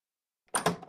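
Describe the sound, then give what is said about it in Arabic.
A door is opened to let a brother in: silence, then a sudden clatter with two close knocks and a short rattle that carries on to the end. “افتح لأخوك الباب.”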